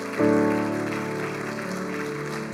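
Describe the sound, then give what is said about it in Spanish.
Loud applause from a church audience swells in abruptly and stays as a dense, steady clatter of many hands, layered over a sustained musical chord that holds throughout. “Denle un aplauso fuerte a Dios. Amen. Fuerte, fuerte al Señor.”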